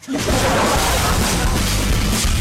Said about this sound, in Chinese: 服务员啊，带枪的，把那个听众给我击毙。